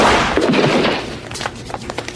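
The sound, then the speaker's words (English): A gunshot rings out in a TV spy comedy scene: a loud burst of noise followed by a few sharp, quieter cracks, with no voices heard. “this moment leads to a scene that many of us could only wish we could see play out in this lifetime or the next. Andy Dick getting shot.”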